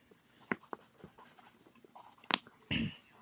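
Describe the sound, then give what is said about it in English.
A pen writes on paper with faint, scratchy strokes and a few sharper scrapes and taps, ending in a longer, louder scribble. “let me write that.”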